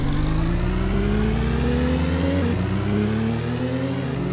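A car engine accelerating at a race start in a racing video game with automatic transmission: a loud, steady droning whine climbs in pitch, drops at a gear change, climbs again and dips once more near the end.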